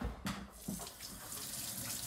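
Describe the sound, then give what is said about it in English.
Water runs from a tap while hands are washed at a sink. A faint, steady rush carries a few louder splashy bursts early on. “Now, what I want you to do, let's turn the lights back on and we're gonna wash your hands.”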